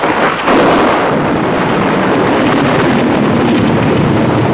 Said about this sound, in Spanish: La tormenta es cada vez más fuerte.